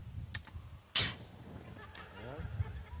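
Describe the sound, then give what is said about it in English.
A gas solenoid valve opens with a click as software admits gas to fill an accumulator. A faint tick comes first, then one sharp, louder click over a low, quiet hum. “Gas then flows into this solenoid valve, and if the software is happy about it, it turns on the valve. So that's gonna start poofing. So you might even be able to hear a click.”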